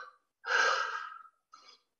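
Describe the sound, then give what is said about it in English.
A man takes a deep breath to calm himself while angry: one long, noisy inhalation between shorter, softer breaths, with no talking. “let me calm down. Deep breath.”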